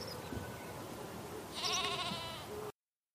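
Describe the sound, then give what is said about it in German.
A lamb bleating in an Advent nativity stable with a few animals on a Katschberg Advent trail: one quavering, faint bleat over low background noise, cut off abruptly. “Hier muss ich natürlich auch halten und streichle erstmal ein paar Minuten ein wunderschönes Lamm.”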